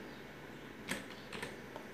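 Computer keyboard keys pressed to delete text, giving a few faint, sharp clicks at irregular spacing over a steady low background hiss.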